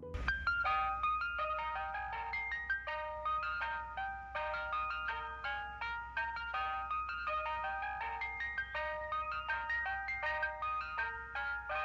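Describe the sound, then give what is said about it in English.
An electronic ice cream van chime plays the American folk melody Turkey in the Straw: a bright, plinking tune of quick, evenly spaced notes that runs steadily throughout, loud and alone with no voices. “Ice cream vans have a couple of tunes, Yankee Doodle Dandy, the Camptown Races, but around the world, the most common ice cream van tune is this one.”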